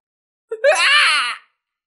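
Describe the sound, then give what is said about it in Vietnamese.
A man's terrified scream, a brief cry that jumps up in pitch and is held for about a second before stopping abruptly, heard alone. “Gã chỉ kịp kêu lên một tiếng sợ hãi rồi im bặt.”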